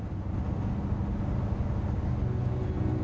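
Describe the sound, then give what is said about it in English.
Low, steady rumble of a truck driving along a road at night, an even wash of engine and tire noise with no breaks, moderately quiet throughout. “Headlights shine in the dark night as the truck continues on the road home.”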